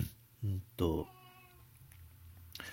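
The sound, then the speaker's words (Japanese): A cat meowing, with a few loud, drawn-out harmonic meows rising out of a quiet room tone and separated by short pauses. “猫がよく鳴くんで、なんか不思議ですけども”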